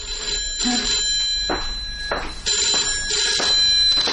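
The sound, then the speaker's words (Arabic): A telephone bell rings in repeated loud bursts with short gaps between them. No one speaks. “يا ترى مين اللي بيتصل في الساعة دي؟ أنا هرد أنا على التليفون أشوف مين.”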